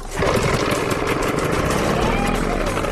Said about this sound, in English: The teams must check that their engines start and run smoothly. Switches on. Switches on. Contact. Contact.